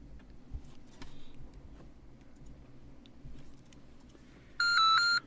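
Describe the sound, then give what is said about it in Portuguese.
A phone is dialed to call a friend: faint soft taps and ticks over a low background hum lead to one loud, steady two-tone touch-tone beep near the end. “Vou ligar aqui pra ela.”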